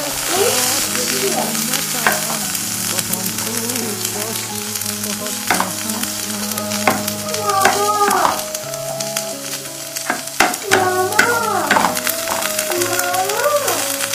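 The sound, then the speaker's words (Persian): Potato chips fry and sizzle in hot oil, giving a continuous crackling hiss. Stirring, scraping clatters and bursts of louder spitting break in throughout. “در حال سرخ کردن چیپس”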